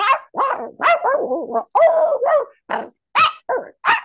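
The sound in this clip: A puppeteer and voice actress imitates a dog barking with her voice, giving a quick series of loud, yappy, slightly growly barks with short gaps between them and no other sound.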